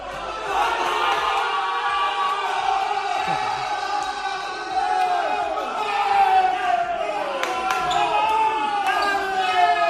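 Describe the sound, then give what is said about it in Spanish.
Leima basketball players cheer in their locker room after a big win over Estudiantes. Many voices shout and chant loudly and without a break, with sharp percussive hits cutting through. “Así sonaba el vestuario del Leima.”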